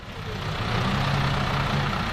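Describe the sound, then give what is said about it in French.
A shuttle bus engine rumbles at a lake landing stage in Lugrin, a commune near Évian. The heavy, steady idle grows slightly louder and then holds, with no voices. “7h moins quart, un bus navette arrive au débarcadère de Lugrin”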